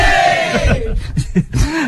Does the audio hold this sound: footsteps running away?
no

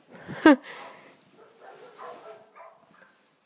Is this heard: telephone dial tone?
no

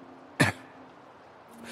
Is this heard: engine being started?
no

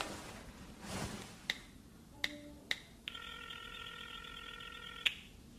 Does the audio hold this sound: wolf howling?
no

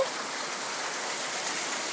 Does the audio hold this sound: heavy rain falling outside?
yes

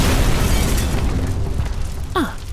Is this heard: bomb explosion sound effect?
yes

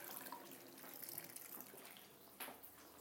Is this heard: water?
yes

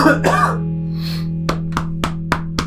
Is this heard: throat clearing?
yes

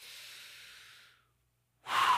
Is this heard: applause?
no

